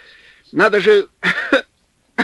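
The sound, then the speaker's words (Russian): A man coughs after gulping cold wind in the snow, in a few harsh, voiced bursts. The fits are loud, with short pauses between them. “Снабженец глотнул ветра, закашлялся.”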